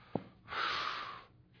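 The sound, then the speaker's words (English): A person imitates a loud, disgusted exhale, the act of snuffing: one short breathy puff through the nose or mouth, under a second long, following a faint click and standing alone. “It means to exhale loudly as if to show disgust.”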